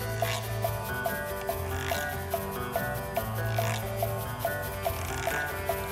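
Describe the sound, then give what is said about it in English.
A güiro, a hollowed, lacquered and serrated gourd, is scraped with a stick inside a song, giving steady, repeated short rasps. The scrapes keep an even rhythm mixed among other instruments at a moderate level. “This song also features the güiro, which is traditionally a gourd that's been hollowed out, lacquered over, and serrated so that you can scrape a stick on it.”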